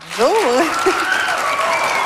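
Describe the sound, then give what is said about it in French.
Audience applause for a guest, a naturalist, introduced on a live show: continuous dense clapping. A voice calls out over it with a rising and falling cry near the start. “On l'applaudit.”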